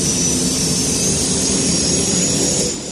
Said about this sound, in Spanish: Luke enciende motores, escucha la voz de Obi-Wan.